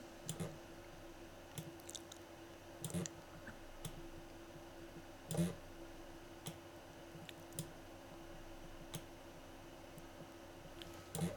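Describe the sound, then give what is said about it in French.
Computer mouse clicks while clicking a line segment to bend it into a curve. A few sharp, quiet clicks are spaced irregularly over a steady low hiss. “il suffit de cliquer sur le segment pour le courber. Cliquer et déplacer.”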